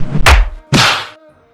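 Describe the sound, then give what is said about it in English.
A hand smacks a microphone twice, two loud, heavy thumps about half a second apart, each followed by a brief ringing decay. “I just smacked the mic.”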